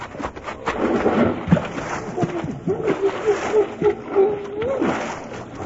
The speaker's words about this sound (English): I'm going to take me a long run and jump and get wet all at one time. All right, let's go. Here I go.